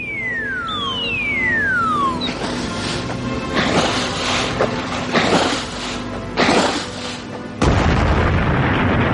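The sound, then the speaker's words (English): A bouncing bomb drops and explodes: two falling whistles glide downward, then several heavy booming blasts and rumbling bursts follow one after another, the last one loud and sustained. “Bombs away, Ginger. And watch that baby bounce.”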